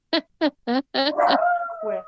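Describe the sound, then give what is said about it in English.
A dog barks three times in quick, evenly spaced yips, then breaks into a longer whining howl that holds a fairly steady pitch. “My dog.”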